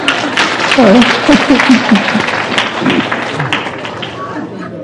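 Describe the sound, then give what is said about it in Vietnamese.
Audience applause at a live event: a sustained, dense clatter of clapping lasting several seconds and slowly easing off, with a voice speaking over its early part. “Bà con cho ông tràng pháo tay.”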